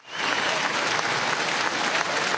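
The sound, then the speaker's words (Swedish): A crowd applauds and cheers steadily as Norway's new royal couple, Håkon and Mette-Marit, wave from the palace balcony after King Harald's funeral. The dense clapping swells in quickly and holds loud and even throughout. “När Norges nya kungapar Håkon och Mette Marit vinkade från slottets balkong efter kung Haralds begravning förra veckan så jublade folkmassan.”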